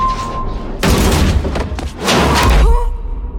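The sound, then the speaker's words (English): Video game blasts as a Reaper's giant death beam blows up a room: a few heavy, rumbling booms burst out in quick succession, loud and dense, then settle into a lower tone. “We can hear a Reaper in the skies above our own city that we're in. Oh my god. It's got a giant death beam. Hey, and it blows up the room we're in.”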